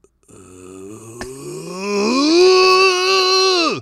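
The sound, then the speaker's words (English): A man grunts while straining to lift a 405-pound barbell. The long voiced effort starts low, rises in pitch into a loud, sustained groan, then cuts off abruptly. “Was that first grunt of him trying to lift 405?”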